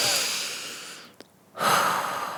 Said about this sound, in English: Relax and breathe. So I did.